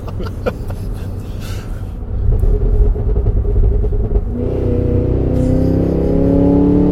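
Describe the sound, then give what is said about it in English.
A supercharged car engine roars at full throttle, a loud, dense rumble with a throaty growl whose pitch climbs steadily through the second half as it pulls harder. “That's full throttle.”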